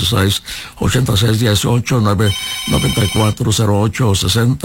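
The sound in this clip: A telephone rings on a live call-in TV program, a bright, buzzing electronic tone lasting about a second, while a voice keeps talking before, during and after it.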